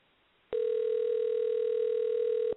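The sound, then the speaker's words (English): Telephone tone on a line being dialed out: after a moment of quiet, a loud, steady, unwavering electronic tone starts abruptly and holds at one constant pitch until the end. “All right, dialing out. I'm dialing out.”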